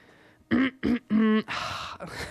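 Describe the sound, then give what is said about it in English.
Throat clearing: three short, voiced grunting bursts followed by a rough, breathy rasp, all alone with no speech. “As I clear my throat in a...”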